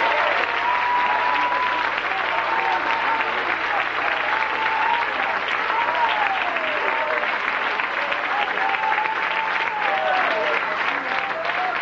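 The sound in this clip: A church audience applauds during a sermon, sustained loud clapping that stays dense and even from start to finish, with voices calling out above it.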